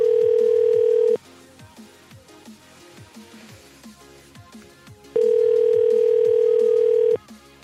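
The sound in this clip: A ringback tone sounds on an unanswered phone call: two long, steady buzzing tones separated by a lengthy pause, with quieter clicks and background sounds in the gap between them.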